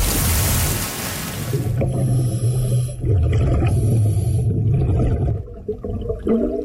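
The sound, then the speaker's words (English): Underwater ambience recorded by a scuba diver: a dense, crackling hiss filled with low, wavering hums and a few thin, high whistling tones, steady throughout. “No, just kidding. That's the sound of the underwater world.”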